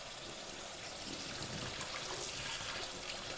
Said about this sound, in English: Notice breath by breath how the dish gets just a little bit cleaner. Rinsing or soaping.